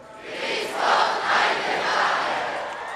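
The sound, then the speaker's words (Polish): A large crowd roars an ovation welcoming Pope Benedict XVI at Jasna Góra. Many voices cheer and shout together in a sustained, swelling wave that rises and then holds, loud and continuous. “Jasna Góra zgotowała Benedyktowi XVI owacyjne powitanie, takie, którego z pewnością nie oczekiwał.”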